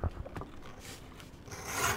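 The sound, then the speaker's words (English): A round head knife cuts leather with short, rasping, scraping strokes, faint and heard alone. “This what they call a head knife or a round knife. This is what I cut all my leather with, cut my parts out.”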